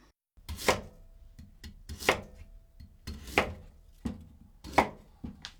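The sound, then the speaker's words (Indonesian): A knife cuts off the bitter ends of a washed sweet potato on a board: four heavy, evenly spaced chops, with lighter taps and scrapes between them. “Cuci kulitnya secara menyeluruh, kemudian buang kedua bagian ujungnya yang terasa pahit.”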